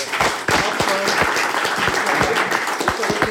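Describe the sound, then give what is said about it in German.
Applause for a participant during a live video game quiz: a loud, steady crackle of many hands clapping, dense and unbroken from start to finish. “Jetzt ist erstmal Applaus für unseren”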